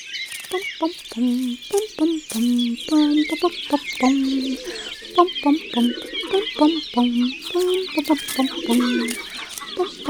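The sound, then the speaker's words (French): A hen and her ten chicks cluck and peep as they return to the henhouse, where a rooster and other hens are also present. Low, rapid clucking runs throughout, with many high, thin chick peeps over the top. “Entourée de ses 10 poussins, Poulette fait un retour très attendu au poulailler. Chacun veut savoir comment s'est passée la journée. Leur papa le coq, les autres poules”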